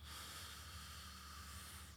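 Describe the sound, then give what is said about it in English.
A deep breath in, taken as a slow relaxation exercise: a long, even, airy hiss that holds steady throughout with no talk. “I've just been trying to relax my body. Yeah. And breathe in for 4”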